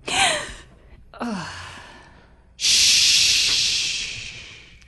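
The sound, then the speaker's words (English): An injured woman draws in a large gasping breath: two short breathy bursts, then a long, loud rasping inhale that slowly fades. “draws in a large breath, and her eyes open, and she is hurt, but stable, and she is alive.”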